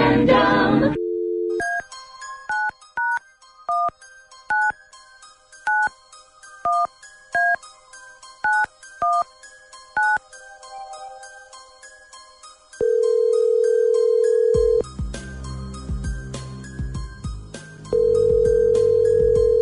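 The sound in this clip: A phone number is dialed on a keypad: a brisk string of short touch-tone beeps that jump between pitches, followed by long, steady ringing tones on the line. A brief noise comes at the start, with no talk.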